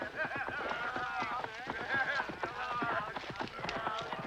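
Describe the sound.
Hooves of three horses clip-clopping as riders pass along a road near a colonial village: a brisk, steady patter of many hoofbeats, with voices speaking over it.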